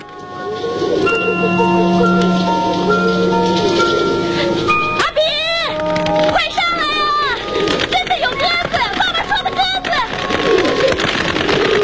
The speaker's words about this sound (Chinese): 家门前竟真的落下了一群鸽子，咕咕叫着，像是说着什么。